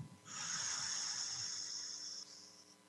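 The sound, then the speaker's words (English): One long breath blown out, a soft steady airy hiss that lasts about two seconds before tapering off, quiet and alone with no talk. “Take a nice breath, everyone. From the tips of your toes, take a breath. And blow out any negative energy that we collected along the way.”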